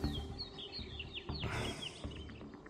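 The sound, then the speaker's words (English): Birds chirp through a calm morning forest ambience, many faint, high, quick chirps and trills scattered over a soft, steady low background. “I like the beautiful, peaceful birds in the middle of this combat. It fits, actually. Like, it sounds weird, but it's just a calm morning in the forest.”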